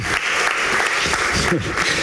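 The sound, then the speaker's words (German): Audience applause welcoming a speaker onto a stage: dense, steady clapping that holds an even loudness for the whole stretch, with some voices mixed in. “Bitte begrüßt mit einem herzlichen Applaus Max Giordano”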